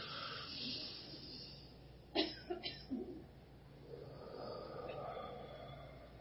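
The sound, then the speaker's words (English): Breath sounds from a person doing a deep breathing exercise: quiet background, then a few sharp, audible inhalations and exhalations in quick succession near the middle. “Just look, just focus on God, close your eyes, and you're going to breathe from here as big as you can. You ready? Get set, go.”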